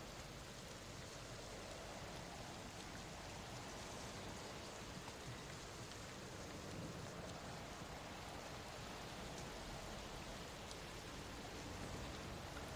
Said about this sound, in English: It just seems to be raining.